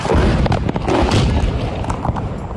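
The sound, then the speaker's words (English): Explosion from bombardment in Irpin, Ukraine: a loud, dense, rumbling boom that fills the whole stretch, with rough bursts rising and falling inside the roar before it eases slightly toward the end. “And Irpin, that you mentioned, is about 13 miles from the centre. It's suffered horrendous bombardment. I just want to play a clip you posted on social media from there.”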